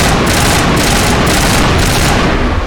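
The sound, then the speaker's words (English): Rapid video game gunfire shoots at power junctions in a dense, loud barrage. The shots come as many quick bursts that blend into a continuous roar of fire. “Power junction. I'm gonna shoot.”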